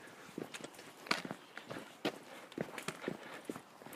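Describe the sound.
Footsteps walking downhill on a bumpy forest trail, a steady, quick rhythm of many light crunching steps, fairly faint.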